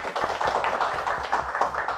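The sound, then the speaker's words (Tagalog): Applause from an audience at a ceremony, a dense, continuous patter of many hands clapping at an even level throughout. “Palakpakan po natin.”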